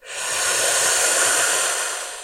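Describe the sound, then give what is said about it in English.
A forceful open-mouthed yoga exhale, the lion's breath, comes as one long, loud breathy hiss. It swells quickly and fades slowly over about two seconds. “Open mouth, lion breath.”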